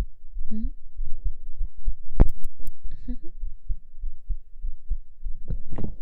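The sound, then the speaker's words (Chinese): A fast heartbeat, the master's racing pulse, sounds as a long run of quick, steady low thumps. A few brief soft clicks and rustles occur between the beats. “主人的心跳是不是跳得很快啊？仔细听哦。”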